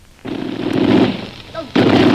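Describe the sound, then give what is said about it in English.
A machine gun is test-fired right after being assembled on the north wall of a lamasery: two loud, sustained rattling bursts, with a voice calling out briefly in the short pause between them. “Well, it's been a long time since I put a machine gun together. I had to make sure it worked. Well, it worked all right.”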